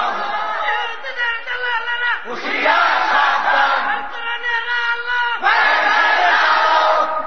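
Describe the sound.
A crowd shouts back in unison to a Bengali Islamic preacher's call during a sermon, a loud, sustained roar of many voices that surges twice into stronger bursts.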